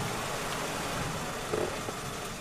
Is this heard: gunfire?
no